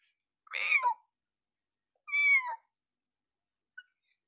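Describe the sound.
A voice imitates a cat's meow in two drawn-out, whiny meows, each sliding down in pitch, followed by a brief faint click.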